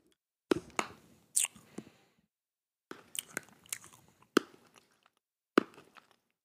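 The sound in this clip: Chewing a sweet that tastes like watermelon bubblegum: faint crunchy bites and wet mouth clicks in short, irregular bursts with quiet pauses between them.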